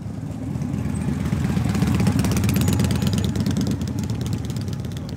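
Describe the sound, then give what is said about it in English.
Motorcycles at a bike rally in Northwest Arkansas produce a steady, low engine rumble that swells toward the middle and eases off slightly toward the end. No voices are heard. “it's that time of year when up to a half million visitors roll into Northwest Arkansas on their motorcycles for the Bikes, Blues, and Barbecue Rally.”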